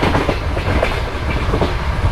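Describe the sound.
A train travels along rails between stations with a loud, continuous rumble. Rhythmic clickety-clack beats from the wheels repeat throughout, and no voices are heard.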